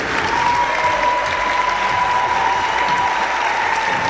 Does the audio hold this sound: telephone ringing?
no